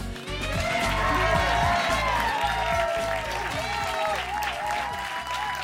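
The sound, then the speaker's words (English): Applause from a full, standing-room-only audience at a downtown Louisville live music showcase, greeting a musician and his band: dense, loud clapping that runs steadily and unbroken from start to finish. “Well, as you may be able to hear, we have a full house today, standing room only for this remarkable musician that we have with us today and his incredible band.”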